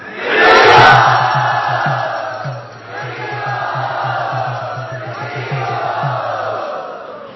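A large audience cheers and shouts loudly in welcome at a gathering, a sustained roar lasting several seconds over a steady, rhythmic low pulse.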